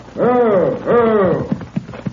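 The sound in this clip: Horse hooves clip-clop as a rider arrives in a Western town. Three or four sharp, distinct clops land in an uneven rhythm, following a pair of drawn-out tonal sounds.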